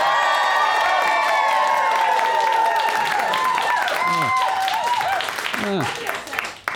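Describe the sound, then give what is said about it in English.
A live audience at a stage show cheers and applauds, with sustained clapping mixed with whoops and shouting voices that stay loud and then thin out toward the end. “I'm speaking to you on the 23rd of March at a Wooden Overcoats live show. And if you don't believe me, here's a live audience.”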